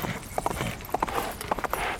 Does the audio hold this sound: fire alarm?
no